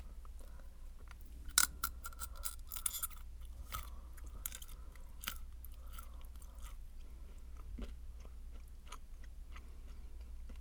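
Chewing of raisins and nuts for ASMR: many soft crunches, clicks and moist smacks in an uneven rhythm, quiet throughout with a few sharper bites standing out and no talk.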